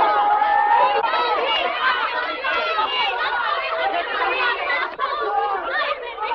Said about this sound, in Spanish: Mujeres y hombres agolpados en el exterior.